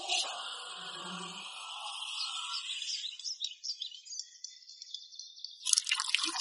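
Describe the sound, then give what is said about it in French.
Dripping, liquid sounds as paint fills huge tubs dug by a crane in front of a garage for assistance vehicles: a steady run of bright, bubbly drips, ending in a sharper splashy burst. “Oh, les baignoires se remplissent de peinture.”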